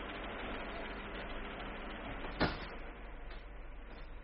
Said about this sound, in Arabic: طب اقفل الباب وراك وتعالى معايا المكتب بتاعك.